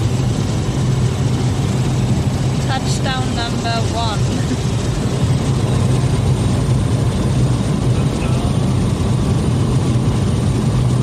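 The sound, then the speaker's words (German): Loud, steady engine roar of an aircraft coming in to land over green terrain, a dense continuous drone with little change in level throughout. “Und wir landen.”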